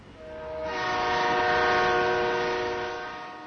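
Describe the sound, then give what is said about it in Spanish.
An approaching train sounds a sustained, chord-like horn. The horn swells in loudness, holds steady, and then eases slightly toward the end. “Ya viene el tren.”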